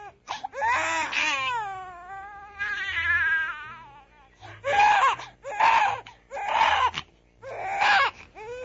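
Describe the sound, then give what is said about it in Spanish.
A baby cries loudly, first in two long wavering wails and then in four shorter rhythmic sobbing bursts, with no other sound over it. “Me parece que ese bebé tiene hambre, ¿eh? Me parece que ese bebé tiene hambre. ¿Cuántas veces habremos escuchado estas dos cosas juntas, no? El llanto del bebé y esa frase.”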